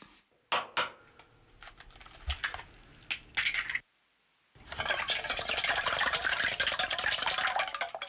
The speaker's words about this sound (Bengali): একটি পাত্রে 2টি ডিম ভেঙে ফেটে নিন।